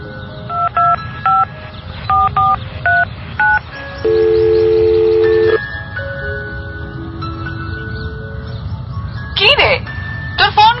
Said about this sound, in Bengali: ফোনটাও একটা জরুরি জিনিস। ওঠ, দেখ কোনো জরুরি কল বোধ হয়।